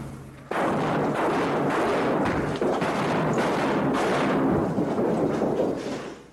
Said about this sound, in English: The flashbangs went off. The wall toppled over.